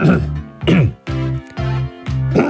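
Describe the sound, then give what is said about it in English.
Deliberate, exaggerated throat clearing by two people: several loud, gravelly voiced bursts of throat noise in a row, each a rough grunt with short gaps between, and no speech. “It's called a throat clearance.”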